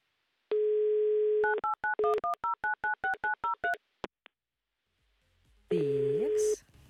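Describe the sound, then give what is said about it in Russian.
Telephone line dialing a call: a steady dial tone, then a rapid run of short touch-tone beeps, a brief pause, and a longer tone near the end. “Но звонить мы будем действительно в Санкт-Петербург прямо сейчас”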